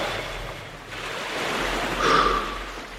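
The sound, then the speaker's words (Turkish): Soft harbour waves among many moored ships, a faint steady wash of water that swells briefly louder near the end, with no other clear sounds. “Ne kadar da çok gemi varmış limanda.”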